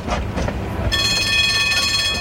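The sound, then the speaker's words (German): A tram runs along its rails with a steady, loud low rumble. Partway through, a sustained high, tonal whine from the wheels or motor joins it. “Die Klasse machte sich auf den Weg. Sie stiegen in das Tram Nummer 8 ein.”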